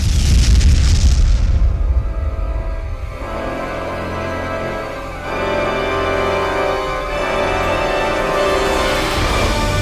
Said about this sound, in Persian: اولین بمب اتم بر سر ژاپنی‌ها آوار شد.